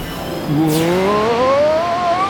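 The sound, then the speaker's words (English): A race car's engine whines as it speeds off and swerves. The loud, sustained tone climbs steadily in pitch with a slight wavering, and a brief whooshing sweep comes at the start. “The last place racer has taken off at blazing fast speed. He's swerving all over the course.”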